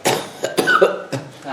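Several short, rough throat-clearing coughs come in quick succession, each a brief, harsh burst close together.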